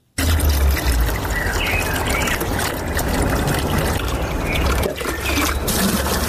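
Water pours steadily into empty containers as a guesthouse owner in Osh stores water after a two-day outage, a continuous loud rushing and splashing that holds at an even level throughout without talk.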